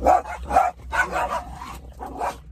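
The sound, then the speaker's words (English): Several dogs bark together in a few loud, harmonic bursts, with short gaps between the barks. “there you go, a whole bunch of them right next to me. Why? Because so the dogs can go crazy while I'm doing my thing.”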